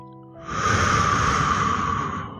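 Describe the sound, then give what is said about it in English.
A single long, deep breath taken slowly: a loud, airy hiss rising in over half a second, held steady, then easing off, alone without talk. “Take a moment, just take a few deep breaths”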